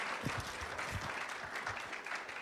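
Audience applause welcoming two couples: a dense, steady patter of many hands clapping at an even loudness throughout, with no voices on top.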